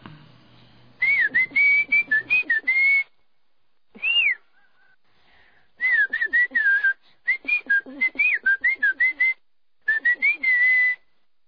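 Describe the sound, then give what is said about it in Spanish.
Mazatec whistled speech from the mountainous Sierra Mazateca: clear, high, gliding whistled syllables in several quick, phrased bursts separated by short pauses, with no spoken voice. “se ha conocido en 4 lugares del mundo. Adelante con una muestra de lo que sería el chiflido mazateco.”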